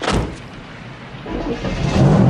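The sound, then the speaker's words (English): Cadillac car driving off along a dark road, a low engine rumble that dips and then swells louder toward the end as the car accelerates away. “John drives along a dark road and turns into a side road next to a military surplus store.”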